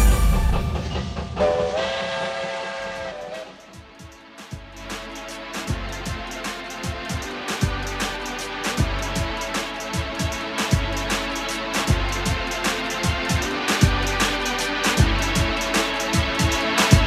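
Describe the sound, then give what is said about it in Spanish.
Train running on rails, opening with a short whistle-like horn tone before settling into many rhythmic clacks of wheels over rail joints, repeating in a steady pattern over a constant rolling rumble. “El tren. El tren sigue su marcha.”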